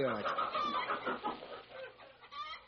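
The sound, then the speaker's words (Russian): A wet hen on a farm clucks continuously in a mid-pitched, moderately loud, fluttering series with no pauses. “Эй, ты, с дороги мокрая курица. Дай мне яйцо”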